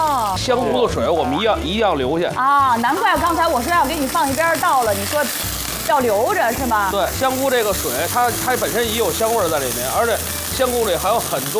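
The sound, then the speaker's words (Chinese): Soaked shiitake mushrooms stir-frying in a wok, a continuous sizzle with stirring scrapes. People talk over the cooking throughout. “这个时候呢，我们把香菇煸一下。 我们这是泡发的”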